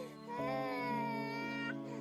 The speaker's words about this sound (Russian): Ты почувствовала тревогу и начала двигаться в направлении этого плача. Ты стремишься к этому малышу, пробираясь сквозь кустарники и заросли.